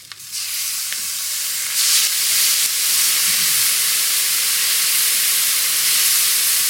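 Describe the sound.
Loud, steady sizzling as mandarin juice hits a hot pan, a sharp hissing onset that swells after a moment and then holds as a continuous, bright frying hiss with no voices.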